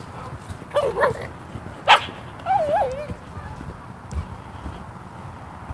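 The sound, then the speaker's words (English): A dog barks a few times over a quiet outdoor background. The barks are short and sharp, and the last is drawn out with a wavering pitch. “I thought that was the dog that was back on the other corner.”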